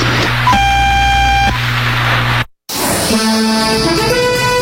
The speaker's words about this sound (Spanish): Al oír el tono serán las 19 horas, 0 minutos, 0 segundos.